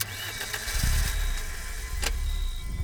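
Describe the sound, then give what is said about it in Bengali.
A site car's engine starts and the car sets off with a continuous mid-pitched rumble and hiss, plus a brief sharp click near the end. No voices are heard. “Ajay চারজন শক্ত সামর্থ্য লোককে নিয়ে সাইটের গাড়িটা করে বেরিয়ে পড়ল অবিরামের সন্ধানে”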